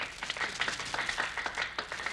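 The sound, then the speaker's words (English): People on a sidewalk applaud, a brisk run of many sharp claps overlapping at a steady, moderate level without a break. “the people on the sidewalk are applauding.”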